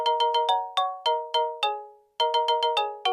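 A shrill electronic apartment doorbell in Singapore rings in sharp, harmonic beeps: a rapid burst of four, four slower, evenly spaced tones, a short silence, then another quick run of six.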